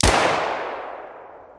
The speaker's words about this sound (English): One shot, lost in the roar of 1,500 people laughing.